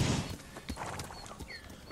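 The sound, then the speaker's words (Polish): Hooves of a horse summoned in a video game clop softly, a few light, uneven clip-clop thuds over a faint, noisy background. “Jak wyjdziemy z osady, zawezwiemy naszego kunika.”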